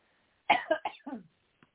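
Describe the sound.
Throat clearing after breathing in dust while cleaning out a storage shed: a quick run of rough, raspy coughing bursts, then one brief faint rasp after a short pause.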